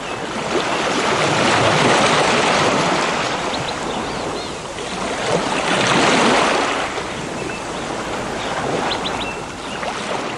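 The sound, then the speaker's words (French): Sea waves roll in and spread out as a broad, loud roaring wash of water that swells and eases back in a few slow surges, with some wind buffeting throughout. “Cette fois, c'est une mer qui s'étend derrière eux. Une mer, lame par lame, qui s'étale, prend du large à travers les campagnes.”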